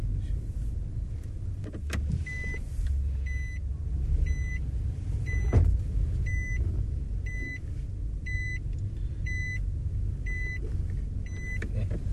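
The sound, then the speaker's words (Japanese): A car being parked in a no-parking area, with short, high electronic beeps repeating at an even pace over a low, steady engine rumble. “駐車する音で楽しんでもらってますけど”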